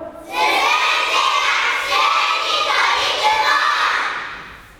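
Fourth-grade schoolchildren shouting together in a gymnasium. A single massed shout bursts in abruptly, holds loud and sustained for about four seconds, then fades away at the end.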